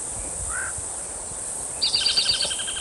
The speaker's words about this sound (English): Hum of cicadas interfering.